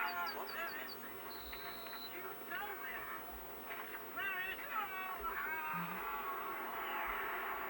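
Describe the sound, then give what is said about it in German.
Bird chirps from yellowhammers in the background of a recording: faint, high, quick chirps and a brief sustained whistle recur over a murky low background with muffled voices. “Habt ihr die Vögel gehört?”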